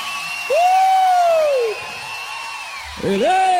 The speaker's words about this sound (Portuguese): pode aplaudir o senhor?